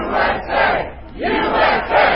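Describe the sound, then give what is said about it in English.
A rally crowd awaiting the president's speech chants in loud, rhythmic swells. Massed voices rise and fall in repeated bursts of shouting. “Ahead of the president's speech, patriots in the crowd shouting,”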